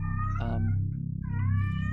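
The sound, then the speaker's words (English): A cat meows twice, each a bright, drawn-out harmonic cry, the second longer than the first, over a steady low hum. “a cat. We have a cat.”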